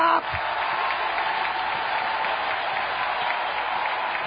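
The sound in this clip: An audience claps its hands in steady, dense applause, a continuous patter of many hands at an even level throughout.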